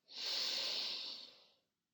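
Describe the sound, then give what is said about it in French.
A single deep breath drawn in during a guided pregnancy meditation, a soft airy rush that swells quickly and holds steady for about a second and a half before fading. “je vous propose de prendre une dernière grande inspiration. On la fait ensemble.”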